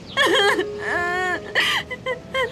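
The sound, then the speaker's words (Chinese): A young woman crying in wavering, high, tearful sobs and whimpers: a long drawn-out wail followed by several shorter broken sobs. “好了好了，不哭了”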